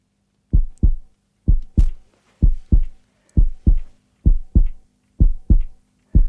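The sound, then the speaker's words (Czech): Heartbeat, with six full lub-dub double beats and the start of a seventh in a steady, even rhythm. The beats are low, loud and thumping, with silence between them. “Nějaký tluk od srdce. Mm-hmm. Výborně, úplně správně.”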